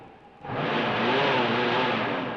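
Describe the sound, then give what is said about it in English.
A car motor running, the car's fender rubbing against its wheel: quiet at first, then the engine catches and a loud, steady roar holds to the end. “you can't drive this car. Fender's cutting the wheel. Sure I can. The motor works, see?”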